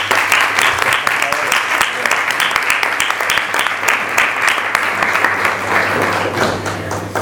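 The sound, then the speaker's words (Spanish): Audience applause at a cultural lecture event as the next speaker is welcomed to the stage, a loud, dense wash of many hands clapping that holds steady for the whole stretch. “muchas gracias a todos y os voy a pedir un aplauso para el aterrizaje de...”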